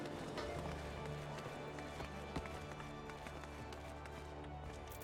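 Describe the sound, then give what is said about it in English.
Footsteps of a character walking toward a marketplace alley in the video game Final Fantasy XIV, a steady run of even footfalls layered over a dense, continuous backdrop of game sound. “Oh, hey, and I can walk with the map open. So now I'm walking to East Hawker's Alley.”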